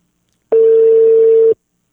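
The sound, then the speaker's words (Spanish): A telephone line tone sounds while a call is placed, one steady, mid-pitched beep lasting about a second, starting and stopping abruptly with silence on either side. “Ahí le estoy marcando al Capi.”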